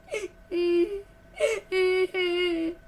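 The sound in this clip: A woman cries in two rounds, each a short breathy sob followed by long, sustained, tonal wails held at a steady pitch.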